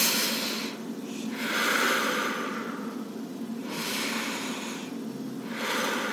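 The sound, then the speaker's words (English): Slow, deep breaths drawn in and let out, with long airy inhales and exhales rising and fading in a few gentle swells and no talking. “let's just on our way out here, let's just do a couple deep breaths.”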